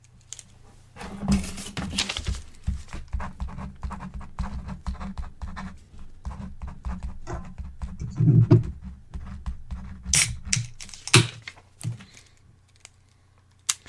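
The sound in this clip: Someone types out a note, giving many soft, irregular clicks and scratchy taps that come in uneven bursts over about fourteen seconds. The sound is faint, with no talk.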